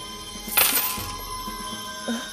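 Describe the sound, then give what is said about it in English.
Gold coins clink and jingle as they are taken out of sacks and counted, with a bright rattling burst near the start followed by fainter scattered clinks. “He took out his sacks of gold coins,”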